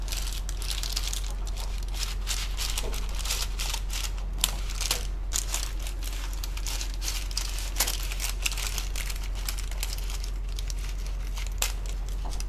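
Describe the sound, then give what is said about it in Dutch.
Scissors cutting through a pizza: a long, steady series of crunchy, crackling snips over a constant low hum, with no talking. “Ik ga nu de pizza knippen.”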